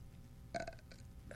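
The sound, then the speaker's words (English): A single short, faint burp sounds against a quiet background. “If you just heard that, it was a nice burp.”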